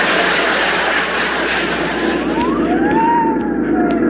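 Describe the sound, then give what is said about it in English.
A fire truck siren wails loudly, its pitch sweeping up and down over a constant roar of engine and traffic noise. “Oh, that's a fire truck. Well, that's what they use to go to blazes.”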